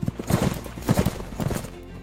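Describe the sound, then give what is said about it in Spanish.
Hooves of French heavy cavalry horses charging, a loud clatter of galloping hoofbeats arriving in a few rapid bursts with no voices. “La caballería pesada francesa carga.”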